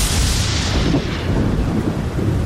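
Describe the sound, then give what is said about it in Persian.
Rain falls in a dense, steady hiss, with a deep rumble running underneath at a constant loud level. “باران میبارید”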